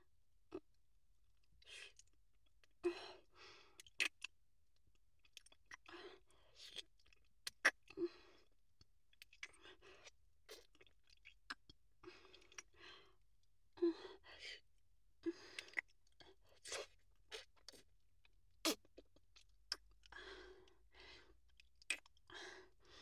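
Eating sounds as someone chews food: many wet smacks and clicking mouth noises in an uneven rhythm, fairly quiet, with no talking.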